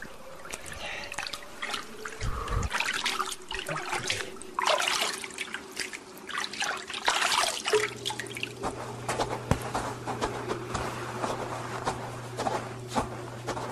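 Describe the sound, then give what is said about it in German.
Water splashes, sloshes and trickles as people swim in cold water while holding onto a boat's rudder, with soft irregular drips and strokes. A low steady hum joins partway through, and no one speaks. “Hier, rüber ins Wasser. Am Ruder festhalten. Okay. Jetzt schwimmen wir.”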